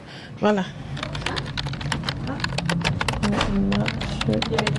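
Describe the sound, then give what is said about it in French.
Rapid typing on a computer keyboard to write up care observations, with many quick, uneven keystrokes clattering steadily while a voice talks over them. “je dois aller vers l'ordinateur pour écrire mes observations”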